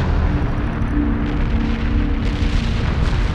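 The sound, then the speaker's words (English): A volcanic eruption on an island blasts a cloud of rock, fire and ash some thirty miles high, heard as a loud, dense roaring rumble that holds steady throughout, with no distinct separate bangs and no voices. “For reasons unknown, the god then awoke, vomiting and releasing a 30-mile-high cloud of rock, fire, and ash.”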